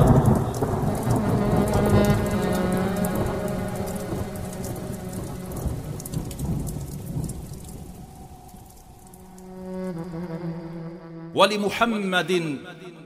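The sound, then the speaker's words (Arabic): Heavy rain pours in a dense, loud, steady roar with deep thunder rumbling beneath it. The downpour thins after about nine seconds, and a voice then comes in over the softer rain. “وبدعاء نوح انهمر المطر،”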